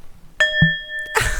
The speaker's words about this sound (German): wir läuten ein in die neue Folge Stem Table mit einem kräftigen Gong.